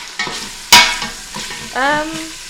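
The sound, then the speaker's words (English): Sausage meat in its casings browning and sizzling in a pan as it is stirred: a steady hiss broken by scraping strokes and a sharp clatter near the start. “a lot of the meat is brown, but it's still not crumbling. It's not coming out of these weird casings. The sausage casing.”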